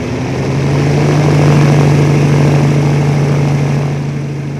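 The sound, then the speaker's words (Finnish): A worn-out old radial aircraft engine roars loudly into running in the early morning at Koivisto. It makes a steady, heavy drone with a strong low hum that swells slightly and then holds. “Parhaat päivänsä nähnyt tähtimoottori paukahti äänekkäästi käyntiin. Sen mylvintä ravisteli varhaisen aamuyön rauhaa Koivistolla.”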